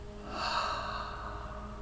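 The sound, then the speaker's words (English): A single slow, deep breath taken deliberately during a guided prayer and breathing session on a mat, soft and airy, swelling gently then easing off. “Let's seal that prayer with an intentional breath. Inhale. Exhale.”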